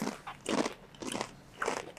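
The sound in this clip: Crunchy bites and chewing of spicy food during a taste test: a few faint, crackling crunch bursts spaced about half a second apart, with quiet gaps between them.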